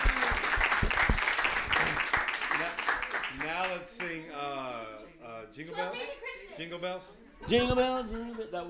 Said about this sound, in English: Let's give the Lord a hearty applause.